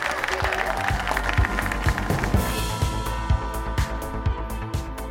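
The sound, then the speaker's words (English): Audience applause at the Duchess theatre closing a live interview event with the Trade Minister, a brisk, uneven patter of many hands with sharp individual claps standing out, with some talk mixed in. “first of all, a round of applause for everyone who's worked here at the Duchess tonight, all the lights and sound. Thank you, the audience, and all the people who asked fantastic questions.”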